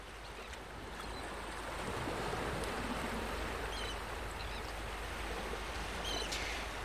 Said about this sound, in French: Ah, c'est beau la mer. C'est reposant la mer. C'est grand la mer.